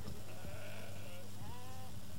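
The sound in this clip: Sheep and goats bleating from a family herd of over 300 sheep and goats, kept alongside cattle and horses: two wavering, mid-pitched bleats, the second shorter, rise over a steady low rumble.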